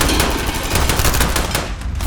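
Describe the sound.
Rapid automatic gunfire in a battle scene of an audio drama, with loud, dense bursts of shots running continuously through the whole clip.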